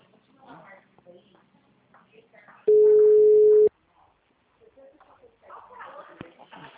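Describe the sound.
A dropped-call tone sounds on a phone call to Santander's HR department: a single loud, steady, mid-pitched beep lasting about a second, with voices talking before and after it.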